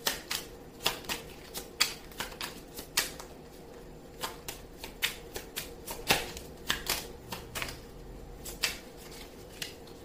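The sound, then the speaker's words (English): Playing cards are shuffled and drawn for a card reading, with many crisp, faint snaps and flicks coming in irregular bursts against quiet background. “May I have a card for Virgo, please? That card seemed like it wanted to come out, but I'm not taking it.”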